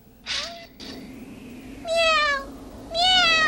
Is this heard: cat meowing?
yes

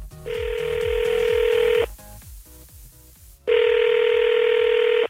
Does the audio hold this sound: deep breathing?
no

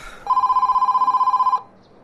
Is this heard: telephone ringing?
yes

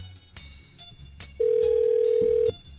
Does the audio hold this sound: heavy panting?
no

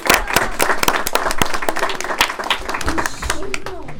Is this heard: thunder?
no

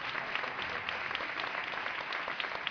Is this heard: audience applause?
yes

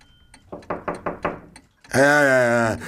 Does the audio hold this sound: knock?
yes

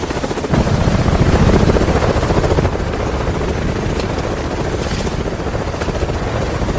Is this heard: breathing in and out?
no

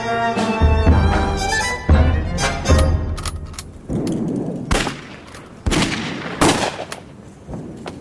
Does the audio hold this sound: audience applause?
no

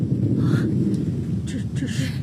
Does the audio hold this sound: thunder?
yes

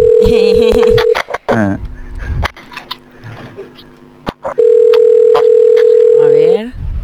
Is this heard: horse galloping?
no

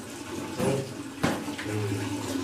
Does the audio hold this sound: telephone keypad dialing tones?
no

